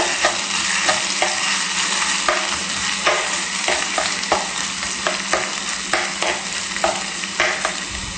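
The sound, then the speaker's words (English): Ginger fries in a pan with a constant loud sizzle and hiss, while many regular scraping strokes from stirring cut through the frying. “Give that a quick stir.”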